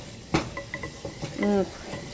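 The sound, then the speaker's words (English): A utensil stirs anchovies in hot oil in a pan, giving a few irregular clinks and scrapes against the metal. A brief vocal sound comes in midway. “They're disintegrating nicely as I stir them. Just getting them in the hot oil makes them basically lose their structural integrity.”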